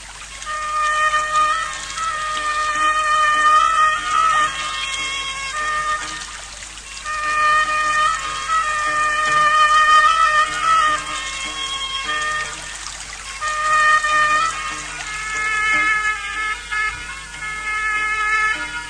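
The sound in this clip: Water splashing and trickling from an animal swimming, a steady wet wash that swells and eases in a few waves, carried under prominent sustained tonal notes that run throughout.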